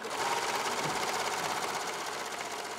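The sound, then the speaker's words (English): Sewing machines serge and stitch fabric handles for recycled, reusable shopping bags at a community sewing station, a continuous loud mechanical whir with rapid, even pulsing throughout. “And then over there, they're serging the handles and sewing.”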